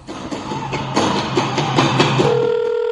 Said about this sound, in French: Sans plus tarder, madame, monsieur, nous appelons tout de suite professeur Takiru Tima.